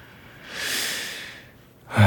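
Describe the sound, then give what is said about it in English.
A single slow, deep breath swells softly and then fades out. It is a faint, airy hiss with no voice over it, and a voice begins right at the end. “I take a deep breath and begin speaking my lines.”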